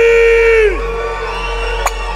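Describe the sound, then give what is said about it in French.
A live rock concert crowd cheers and whoops: a loud sustained shout drops away, then a lower wash of crowd noise with a couple of sharp claps. “Ouais, j'adore quand le public se réveille, man.”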